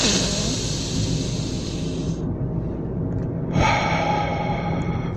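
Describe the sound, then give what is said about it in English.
During a breathing exercise, a deep breath is drawn in through the nose and let out through the mouth. A long, airy rush is followed by a brief lull, then a strong, breathy exhale, loud and alone. “here we go breath number one, deep in the nose, out through the mouth.”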